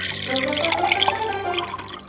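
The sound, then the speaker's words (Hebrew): Water runs and splashes from a tap while hands are being washed. A brief, steady gush of liquid with uneven spatters lasts about two seconds. “אני מנסה לשטוף ידיים, אבל המים בורחים ממני.”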